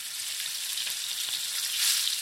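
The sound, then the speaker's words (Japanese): Thinly sliced pork seasoned with salt and black pepper sizzles in a pan of hot olive oil and garlic, giving a steady, bright frying hiss that swells slightly near the end, with no voices. “フライパンにオリーブオイルとニンニクを入れて、ニンニクのいい香りがするまで熱していきます。ニンニクのいい香りがしてきたら、塩と黒胡椒をした豚肉を加えていきます。”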